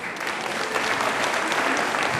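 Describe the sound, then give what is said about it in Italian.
An audience applauds to call for an encore, with continuous, even clapping for the whole two seconds. “Credo che niente come il nostro applauso sia una richiesta di un bis.”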